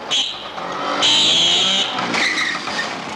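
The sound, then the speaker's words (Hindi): A scooter engine runs with a steady, high, whining tone that swells louder after the first second and stays strong before easing slightly. No voices are heard. “ये उसी के scooter की आवाज है।”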